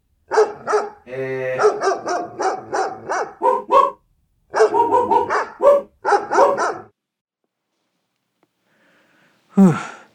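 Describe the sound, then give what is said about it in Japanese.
A dog barks in two quick runs of repeated yaps, then falls silent before letting out one last loud bark. “ちょっとすいません、ワンワン鳴くのやめてもらっていいですか。あ、そうか、犬語じゃないと通じないのか。”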